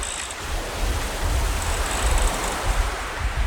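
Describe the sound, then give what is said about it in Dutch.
A small boat moves through water, producing a steady broad rush of water and wind noise that swells slightly now and then but never breaks. “Of het bootje goed door het water gaat en of die netjes vlak vaart.”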